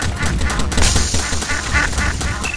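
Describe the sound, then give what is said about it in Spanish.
Duck quacking in a duck-shooting video game, many nasal, cartoonish quacks in quick succession at a steady rhythm, loud and without voices. “A ver cuántos patos matamos. Uno, mataste a un pato.”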